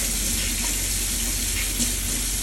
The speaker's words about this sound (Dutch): Ik heb gewoon een vieze handen. Ik ga nu eerst mijn handen wassen.